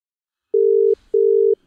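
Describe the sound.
Ringing tone of an outgoing telephone call: two long, steady, mid-pitched electronic tones separated by a short pause, heard alone without talk.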